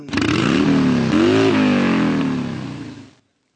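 A motorcycle engine revs hard on the throttle, a loud continuous roar that climbs in pitch, dips, climbs again, then settles and fades out.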